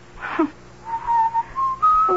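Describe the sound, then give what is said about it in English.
A person whistles a song in a few clear, sustained notes, clean and tonal, ending on a higher held note, over a faint low hum. “Why do you keep whistling that song?”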